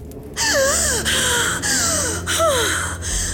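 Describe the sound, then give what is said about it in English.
A sharp, loud gasp for breath as someone bursts awake from sleep, drawn out over about three seconds alongside whistling, sweeping tonal sounds. “With every last bit of my being, I forced myself awake, bursting out from sleep, drawing my first breath as though it were my last.”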